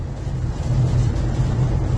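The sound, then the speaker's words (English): Steady road roar from a car driving on a highway in heavy rain: a continuous low rumble under a broad wash of hiss, swelling slightly louder partway through and holding even to the end. “It's raining out here right now. Oh, damn, I'm out here driving on the highway, boy, raining like a motherfucker.”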